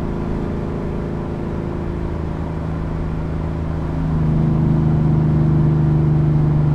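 A car engine held steady at about 3,300 rpm with the windows lowered gives a constant low, droning hum with a steady tonal buzz, growing noticeably louder and fuller partway through.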